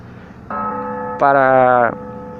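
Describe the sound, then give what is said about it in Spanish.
Church bell ringing at a nearby temple: sustained ringing tones that jump louder partway through and then stop, over a low background rumble. “Ya están esos pendejos tocando la campana. Estoy aquí cerca de un templo.”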